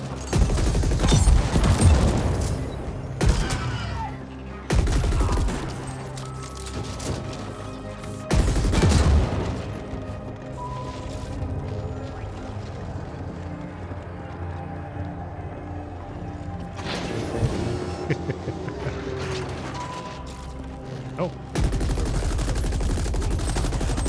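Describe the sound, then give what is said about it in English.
Rapid video game gunfire comes in several loud automatic bursts, separated by quieter gaps filled with lower background rumble. “Why does your gun sound different? Yours has a little better? Less bass. Not as deep.”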